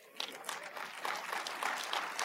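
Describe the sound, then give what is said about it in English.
Light, polite applause from a church audience during a worship service, a soft, thin patter of many hands that stays faint and fairly even throughout. “I got the same golf clap in the first service.”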